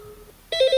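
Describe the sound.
Electronic telephone ring at its loudest volume setting: a faint hum, then a bright, warbling ringtone that starts abruptly midway and holds loud to the end.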